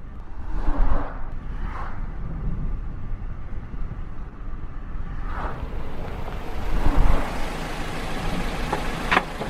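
A car pulls up for a hitchhiker by the roadside. Broad engine and road rumble swells a few times and grows louder toward the end, with no talking.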